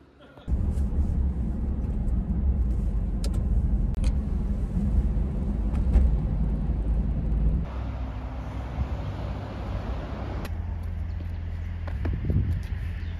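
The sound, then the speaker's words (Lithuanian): Continuous low engine and tyre rumble inside a car driving on a road trip, with a few brief knocks and a change in tone partway through the steady drone. “Išsiskirstimas vienu automobiliu į Kauną, kitu automobiliu į Klaipedą, kitu į Vilnių, kitu dar važiuoti į Varšuvą, pasimti papildomai žmonių. Važiuojam netoli Lietuvos jau.”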